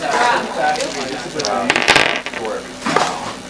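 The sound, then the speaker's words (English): Crackling fire-ray sound effect in a tabletop role-playing game, a ray of fire jetting from a red gemstone eye: a loud, continuous roaring crackle with a few sharper bursts. “A ray of fire jets out from the red gemstone eye, and you take some fire damage.”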